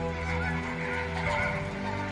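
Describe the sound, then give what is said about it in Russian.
A flock of flamingos calls over a lake, making a continuous chorus of overlapping, nasal, goose-like honks that stays fairly loud and even throughout. “Смотри, какие фламинго.”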